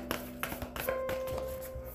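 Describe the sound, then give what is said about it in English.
Light handling of an affirmation card deck as a card is pulled: a few sharp taps and flicks of cards over soft rustling. “So what I'm going to do right now, I'm going to pull an affirmation card, and I want you to lock into your head how you're feeling.”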